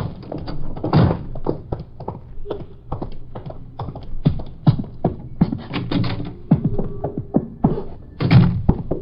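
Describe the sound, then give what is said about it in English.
Footsteps on creaky, noisy stairs: many irregular thuds, taps and knocks in an uneven rhythm, fairly loud, with a few heavier thumps. “Ooh, noisy steps. There's no use trying to keep quiet.”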